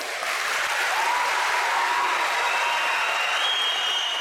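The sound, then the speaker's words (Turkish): Sustained applause from a large crowd in a hall, cheering commandos who rappelled about ten meters down with a flag and poster at a May 19 celebration; a dense, steady wash of clapping continues at even loudness throughout. “Komandolar dakikalarca alkışlandı.”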